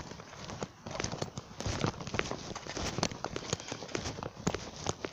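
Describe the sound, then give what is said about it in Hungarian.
Horse hooves clopping in a quick, busy stream of many sharp knocks and scuffs, moderately faint, with no pause in the steps. “Itt a ló.”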